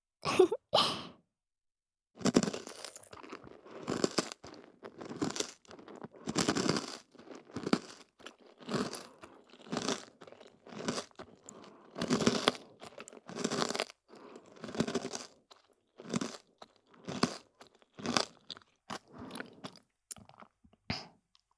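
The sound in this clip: Crunchy food is chewed with loud, crisp crunches. Many bites come in an uneven rhythm with short pauses, heard alone without talk.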